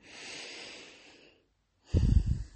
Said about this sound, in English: So this is the type of breath that allows your body to know that it's time to rest.